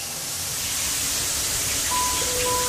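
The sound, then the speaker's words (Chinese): Cold water runs through a 160 mm diameter shower head before a shower, making a steady, loud, even hiss of spray that continues unchanged throughout. “洗澡之前，我们习惯放掉冷水，30秒，一个直径160毫米的花洒”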